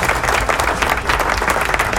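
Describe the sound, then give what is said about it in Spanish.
Crowd applause, dense and steady clapping at a loud, even level that fills the whole short stretch without a break. “¡Suena los aplausos! Ahí están los aplausos.”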